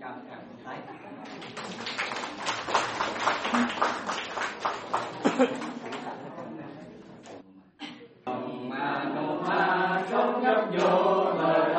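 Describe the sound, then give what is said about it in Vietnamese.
An audience at a gathering with monks and nuns claps hands in a quick, steady run of claps lasting several seconds, then a voice speaks alone. “Phải cho tay hát thì vỗ tay rồi. Mình vỗ tay trước vậy.”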